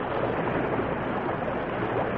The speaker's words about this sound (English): The force of the explosion hurled the two riders into the dangerous whirlpool, the Crazy River.